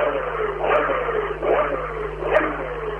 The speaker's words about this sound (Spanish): Motor en marcha.